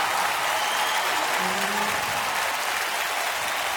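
Dense, steady applause from an audience after a performance at a Punjabi cultural event. The clapping is loud and even for the whole stretch, with no pause.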